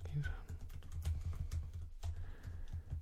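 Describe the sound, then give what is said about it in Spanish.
Notes typed on a computer keyboard, rapid irregular keystroke clicks in quick bursts with a brief pause partway through. “Tengo aquí mi blog de notas virtual. Nuevo documento. Voy a apuntar las cosas de”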